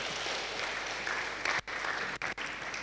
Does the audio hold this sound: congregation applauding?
yes